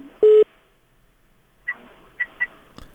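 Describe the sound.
One short, loud electronic telephone tone, then a few faint clicks, as a caller's line connects on a radio call-in program. No one speaks.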